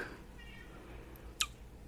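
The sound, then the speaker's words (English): A faint cat meow, short and soft, sits beneath low background noise, followed by a brief sharp click. “Is that a cat in the background?”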